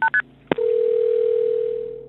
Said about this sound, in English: And then one day, 15 years later, a 911 call was made.